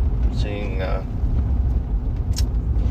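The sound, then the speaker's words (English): A car drives along a beach with a steady, dense low rumble of road and wind noise throughout, and a voice briefly speaking over it near the start. “Right now I'm driving along the beach,”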